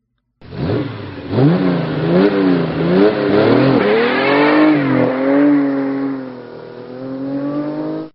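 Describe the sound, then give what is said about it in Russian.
A stolen car drives off, its engine revving up in a few rising surges before settling into a steady, loud hum as it accelerates. “Забежал за угол, прыгнул в украденную машину и дал по газам.”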